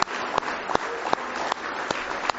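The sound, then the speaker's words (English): A church audience gives a hand clap of praise: a dense, sustained wash of applause with louder claps landing at a steady beat about three times a second, running without a break throughout. “Why don't you give Him a big hand clap of praise tonight if you love Him with all your heart.”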